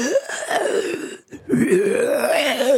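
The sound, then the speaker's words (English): A voice imitates the raspy, disgusting gurgling gasp of a wrinkled, long-nailed woman in a horror film: two drawn-out, throaty groaning gurgles split by a brief silent pause. “She had the most disgusting sounding gurgles.”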